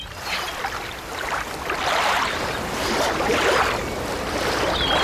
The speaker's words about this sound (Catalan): On estem? A la platja. A la platja, molt bé.